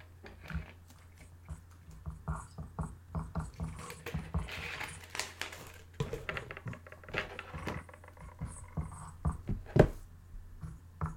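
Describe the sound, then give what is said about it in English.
A formula is written out by hand, giving many faint scratchy strokes and small taps in an irregular rhythm, with one sharper squeak near the end. “Well, I'll show you the formula. I'm going to write it for you.”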